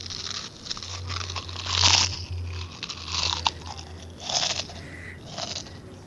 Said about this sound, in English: I'm gonna grab another handful of chips.